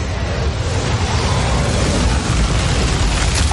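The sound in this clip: A roaring blast of fire as a dragon breathes flame into a mine entrance, a film effect: a dense, loud, continuous rumbling rush that holds steady throughout without a break.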